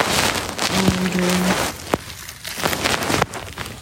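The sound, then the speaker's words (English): Raindrops falling near the shore, heard from under a shelter: a continuous soft patter of rain with a few sharper, isolated drop taps standing out. “See if we can hear the raindrops sitting under the shelter of”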